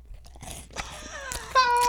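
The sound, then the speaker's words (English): A chocolate-coated wafer ice cream snack being bitten and chewed close up, giving a few crisp, sharp crunches amid softer mouth noise. “Let me have that. I love eating on podcasts, you know, where people listen.”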